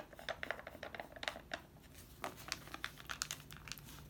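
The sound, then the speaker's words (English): Quiet paper rustling and crinkling as a voting envelope is folded, slipped into a paper mailer envelope and sealed, with many small crackles and scrapes in an uneven rhythm. “Put it inside your mailer envelope. And then once you have that in there, seal it up again.”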